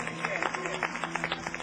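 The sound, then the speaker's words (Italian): Brief applause from an audience at a ceremony for a woman and her family, heard as quick, crowded clapping that stays even for under two seconds. “Caterina e famiglia, ecco qui un applauso anche a Caterina.”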